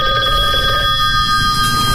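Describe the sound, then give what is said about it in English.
A telephone rings with an incoming call: a loud, steady electronic ring of several high tones held unbroken for two seconds, with no voices. “Whoa, we got a call.”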